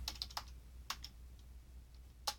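Faint typing on a computer keyboard while composing a tweet: a few light, scattered keystroke clicks over a low, steady hum.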